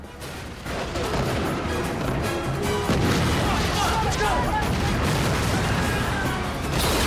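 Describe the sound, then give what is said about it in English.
Explosive charges detonating in a chaotic action scene, heard as a dense, sustained roar of blasts and crashing debris that stays loud and unbroken for the whole stretch. “Hits the detonator and the charges that Monica set explode.”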